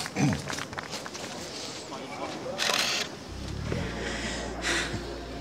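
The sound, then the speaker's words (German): A camera shutter clicks as a photo is taken, a few short, bright snaps standing out from a low, continuous background noise. “Darf ich ein Foto machen? Ja, gerne.”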